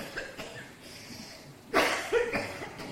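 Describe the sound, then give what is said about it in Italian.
A woman who has been ill coughs in a few short, rough bursts, fairly faint, over a quiet background. “Era tutt'oggi che non tossivo. Credevo di essere guarita.”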